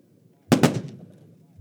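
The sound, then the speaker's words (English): Rifle volleys crack out at a Memorial Day wreath ceremony: loud, sharp gunshot bursts, two close together followed by another after a short pause, each with a brief ringing tail. “Three volleys were fired.”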